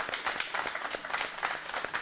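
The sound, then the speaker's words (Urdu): Audience applause welcoming guest teams at a hosted event: dense, even clapping from many hands, holding a steady loudness throughout. “حاضرین سے درخواست ہے کہ آپ بھی خوش آمدید کے لیے تالیوں سے”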